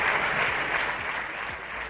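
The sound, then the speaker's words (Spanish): Applause from the parliamentary benches of a political party, dense steady clapping from many hands, loud and unbroken for the full two seconds with no voices on top. “eran los aplausos que recibía Casado de la bancada popular”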